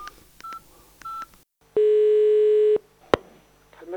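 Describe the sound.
A mobile phone call starts with two short keypad beeps, then a single steady tone held for about a second, followed by a sharp click.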